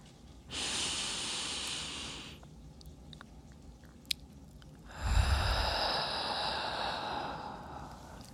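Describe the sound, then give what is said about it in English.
Deep, slow breaths during a meditation for panic or anxiety: two long, airy breaths separated by a quiet pause, the second longer and fuller than the first, soft and steady with no talk. “I know deep breaths can sometimes feel really challenging during intense moments of emotions, and that's okay. Let's try another one.”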